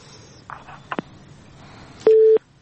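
Busy tone on a telephone line after the call is cut off: a few faint clicks, then one short, steady electronic beep at the end.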